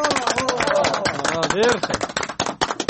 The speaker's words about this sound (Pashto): راکل چکچک ورته ووهئ